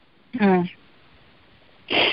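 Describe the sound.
Sniffling from someone crying happy tears: a short voiced catch of breath, then after a pause a loud, breathy nasal sniff.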